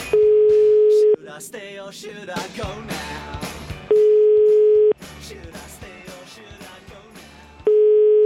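An outgoing telephone call rings through on an Italian line: three steady single-pitch tones about a second long at even intervals, with busy, mixed sounds filling the gaps between them.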